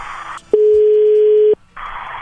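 A telephone line tone sounds while a call is placed: one steady, mid-pitched tone lasting about a second, set between short bursts of hissing line noise.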